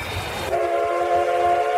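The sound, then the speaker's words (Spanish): A steam train on a railway at a steam fair gives a long, steady whistle that starts partway through and holds its pitch over a low rolling rumble of the train. “Celebrem aquest cap de setmana la Fira del Vapor de Sant Vicenç de Castellet. Veurem com la vida quotidiana del tèxtil i el ferrocarril marcaven el dia a dia.”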